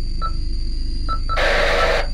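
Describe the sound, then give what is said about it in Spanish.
A radio communicator signals an incoming call with three short electronic beeps over a steady low hum, followed by a loud burst of hissing static. “cuando de pronto sonó su comunicador”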